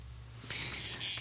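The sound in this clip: Cicadas chirring as a summer sound effect: a loud, high, hissing buzz that swells in after a brief quiet start and pulses with a couple of short dips.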